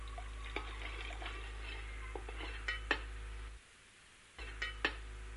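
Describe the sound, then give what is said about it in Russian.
A spoon stirs warm milk with ground saffron, giving faint, scattered light clinks and soft scrapes against the vessel at an irregular pace, with a brief quiet pause before a few more taps. “И вот это вот все я растворяю. Осторожно нужно будет перемешать вилочкой. Вот. Ложечкой.”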